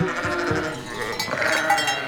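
Goats bleat all at once as the herd crowds in, each wanting ice cream, in a chaotic jumble. Many overlapping bleats form a dense, continuous noise with no talk.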